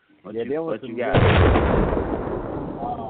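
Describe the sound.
A bomb explosion sound effect follows a short burst of speech: one sudden, loud, deep blast that spreads into a long rumbling decay.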